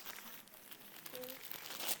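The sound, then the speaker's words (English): Wrapping paper crinkling as a gift is unwrapped, a faint, continuous papery rustle with small crackles throughout. “Do you think you can unwrap that? Stand up here so people can see. That's it. Just go for it.”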